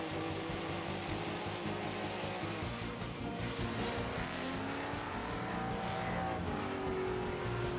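A fast-driving vehicle roars at a loud, steady, dense level for the whole clip, with a brief high squealing tone late on and no talk.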